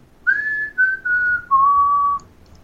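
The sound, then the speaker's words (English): A person whistles an imitation of a tune once heard from a man on a sidewalk, in four clear, pure notes that step downward in pitch, the first and last held longest, with no talk over them. “he was kind of whistling this tune, right? It sounded like”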